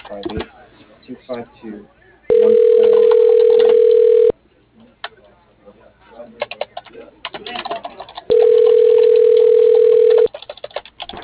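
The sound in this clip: A telephone ringback tone sounds twice as a call goes through: steady mid-pitched tones of about two seconds each, separated by a long pause. People talk between and around the rings.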